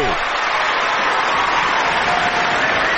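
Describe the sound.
Applause during a show announcement for Yalda night: a steady, dense wash of clapping that holds at an even level for the whole stretch.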